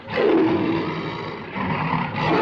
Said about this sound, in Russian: На палубу грузят клетки с тиграми и львами.